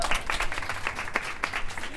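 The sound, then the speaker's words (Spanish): Applause from a group at a radio gathering, honoring a women's delegation from Peru, heard as a brisk patter of many hands clapping throughout. “A ver, un aplauso para ustedes, por favor.”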